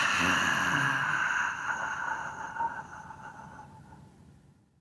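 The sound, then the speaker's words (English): A slow breath is released through the mouth during a relaxation breathing exercise. The soft, airy whoosh fades steadily over a few seconds, with faint sustained tones beneath it. “Now releasing that, I'm going to release that through my mouth.”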